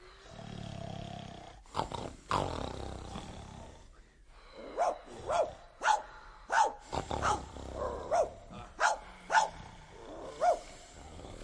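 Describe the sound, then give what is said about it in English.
A loose dog barks in a quick run of sharp, loud barks, many in a row with short gaps between them, after a few earlier rougher sounds. “What's that? It's that wretched dog. He's out again.”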